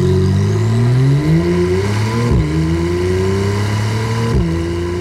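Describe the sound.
A naturally aspirated Porsche engine revs hard and steadily, its loud note climbing in pitch through the gears, with two brief abrupt dips where it shifts before rising again.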